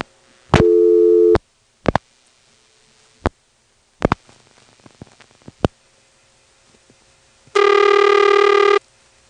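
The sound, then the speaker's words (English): Telephone line sounds as a two-digit vacant code is dialed on a Woodville, North Carolina exchange: a short loud tone, a few sharp clicks and faint switching noises, then a longer steady harmonic tone. “Here's a 2-digit vacant code.”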